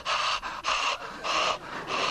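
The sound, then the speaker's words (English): Heavy breathing over a telephone, a quick run of loud, rasping pants, inhales and exhales in a steady rhythm, with no speech. “Good to hear your breath again.”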